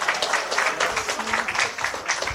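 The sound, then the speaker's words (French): Audience applause greets the radio station's CEO and founder as he is introduced at a programming launch, a dense, steady wash of clapping that holds at an even level throughout. “Applaudissez, s'il vous plaît.”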